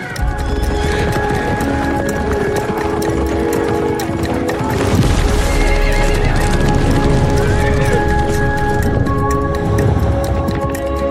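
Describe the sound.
Horses neigh and whinny loudly over steady clip-clopping hooves, a dense, continuous mix of repeated harmonic cries and hoofbeats throughout.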